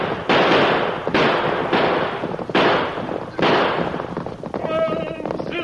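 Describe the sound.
Gunshots crack in a western shootout as riders on horseback are chased by a masked man and his band. A rapid series of loud blasts rings out, each trailing a long echoing decay, with a shouting voice near the end.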